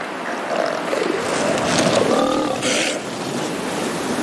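Male elephant seals roar as a lower-ranking bull tries to mate during the midday rest and the dominant male comes to confront him. A few deep, rough, throaty bursts sound over constant loud background noise.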